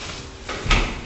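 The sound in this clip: A door is handled in a newly finished two-room apartment, giving one short, muffled clunk against faint background noise.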